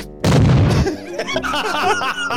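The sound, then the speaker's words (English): A battleship explosion sound effect bursts out loud and brief, then gives way to laughter and voices. “Well, now we need to test the all-important sound effects. So, there we go. What about our battleship?”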